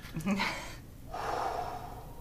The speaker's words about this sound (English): My attempt at inhaling the good shit.